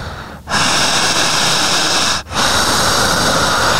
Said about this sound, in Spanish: Siga respirando cerrando los ojos, soltando las manos.